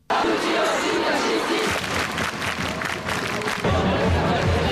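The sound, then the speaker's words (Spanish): A large student protest crowd in the streets of Paris creates a loud, continuous roar of shouting and chanting voices, with cheers rising and falling throughout. “Escuchamos el sonido de la manifestación estudiantil en la capital, en París, la más numerosa de las convocadas este martes.”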